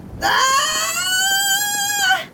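A woman screaming in labour: one long, loud, high-pitched wail that swells at the onset, holds steady for about two seconds, then breaks off.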